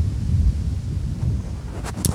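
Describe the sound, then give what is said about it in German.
Wind buffeting a microphone makes a steady, heavy low rumble that lasts the whole time, with a couple of brief brighter noises near the end. No voices are heard. “Oh, ist jetzt aber gerade ein bisschen windig, oder?”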